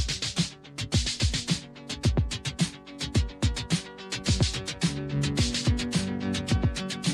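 Synthesized Moog music, with a Moog rhythm track and a Moog music track synchronized together, pulses in steady percussive beats beneath sustained tonal lines.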